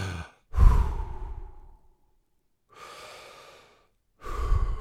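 Deep breathing taken as a short calming pause under stress: airy, rushing breaths with loud exhales and softer inhales in a slow, unhurried rhythm, with quiet gaps between them and no talking.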